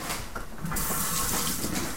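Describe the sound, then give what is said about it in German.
Tap water runs steadily into a sink while someone washes their hands in a home in Japan, a continuous bright hiss that holds even throughout. “Und würdest du deine Hände waschen?”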